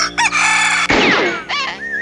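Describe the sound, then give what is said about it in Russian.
A rooster crows loudly and close, its harmonic cock-a-doodle-doo rising and falling in long, rich tones, with shorter clucking notes around the main call. “Как смел этот петух мне прямо в лицо кукарекать!”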